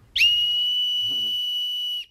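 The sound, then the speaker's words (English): A toy whistle from a cereal box gives a piercing, steady high tone, one loud, even note held about two seconds that stops abruptly. “the little whistle in a Cap'n Crunch box, if you blew on it just right, would produce a tone, this is annoying, hold on, of 2,600 hertz.”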